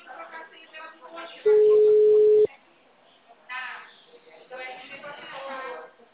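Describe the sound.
A telephone call tone rings once as a steady mid-pitched beep lasting about a second, cutting through narrow, phone-like talk from voices heard before and after it.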